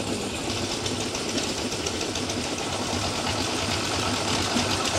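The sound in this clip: A running generator gives a steady mechanical drone with a fast, even pulsing texture that holds constant throughout, with no voices over it.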